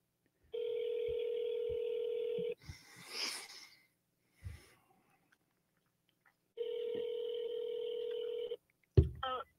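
A telephone call rings through to voicemail. Two long, steady ringing tones are separated by a quiet gap with faint rustling, and a sharp click comes near the end.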